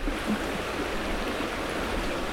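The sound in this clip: Whitewater on a big river gives a steady, dense rushing roar, even and unbroken throughout with no other sounds.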